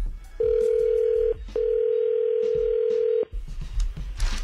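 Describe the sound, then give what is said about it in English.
Telephone tone as a call is placed: two long, steady mid-pitched tones separated by a short gap, the second noticeably longer, followed by faint background noise once the tone stops. “We're going to call Stephanie. She's not going to know you're on the phone, okay?”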